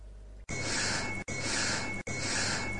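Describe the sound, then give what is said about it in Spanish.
Breathing in a recorded psychophony: three long, airy breaths split by brief pauses, with a faint steady ringing tone from a small bell sustained underneath. “Una campanilla de fondo y una respiración. Una campanilla y una respiración.”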